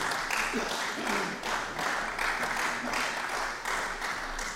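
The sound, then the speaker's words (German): Applause in a parliament, a sustained clatter of many hands clapping that swells and eases in waves, with voices murmuring beneath. “Applaus”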